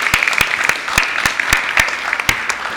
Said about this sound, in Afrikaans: Kan ons vir hulle net 'n hande klap gee?